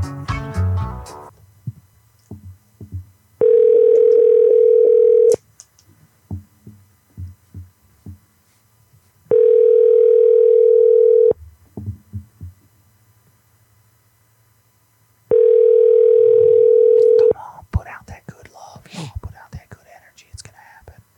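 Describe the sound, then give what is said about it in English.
Ringback tone of an outgoing phone call before it goes to voicemail: three steady two-second tones with long silent gaps between them. A faint murmur sits under the gaps, and louder, busier sounds follow at the end. “Your call has been forwarded to voicemail.”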